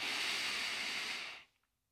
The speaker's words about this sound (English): Deep breaths continue to flow. And by now, your lungs should just be so good at receiving deeper, bigger breaths.